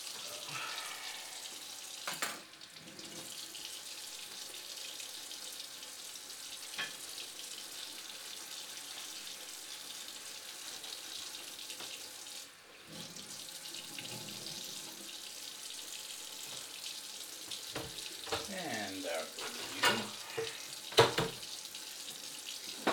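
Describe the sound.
Tap water runs into a sink while it is being cleaned, a continuous soft rushing hiss broken by a few brief knocks and clatters, faint overall.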